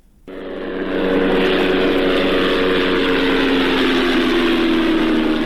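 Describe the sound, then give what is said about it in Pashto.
An unmanned drone aircraft flies overhead in Ghazni province, Afghanistan, its engine drone rising quickly to a loud, steady, tonal buzz with a strong low hum that holds unbroken to the end. “دا د هغه بي پيلوټ الوتکې غږ دی چې پر افغانستان د طالبانو له حاکمیت څخه وروسته هم د غزنی ولایت تر څنګ د پکتیا، پکتیکا او ځینو نورو ولایتونو په هوا کې ګرځي.”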